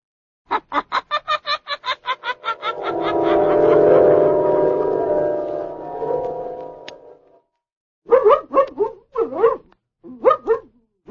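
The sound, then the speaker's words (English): Blackie, a dog being put on a leash, gives a rapid string of short yelps, then a long drawn-out whine, followed by several loud barks. “Down, Blackie. Down, I say. Oh, if you keep squirming, I'll never get you on a leash.”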